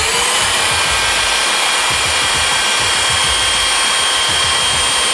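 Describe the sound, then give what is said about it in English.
A sanding machine grinds down the studs of a football kicking cleat, giving a loud, steady whirring roar with a harsh, hissing edge that stays constant throughout. “and then I come and sand down my kicking cleat here, the first kind of four studs to make sure they're not catching the ground”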